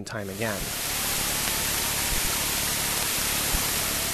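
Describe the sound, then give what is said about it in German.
Raw data from the Kepler planet-hunting satellite converted into sound, a steady, even, static-like hiss with no clear pattern, following a brief voice at the very start. “Die Rohdaten von Kepler. Ins Akustische übertragen ein chaotisches Rauschen.”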